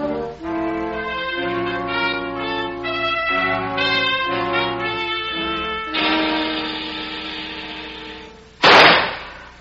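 One sharp, loud pistol shot at target practice cracks out suddenly near the end, after a long stretch of sustained music.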